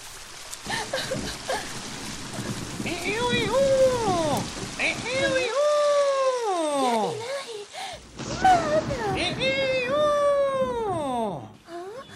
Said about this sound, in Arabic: لقد توقف المطر، الحمد لله توقف المطر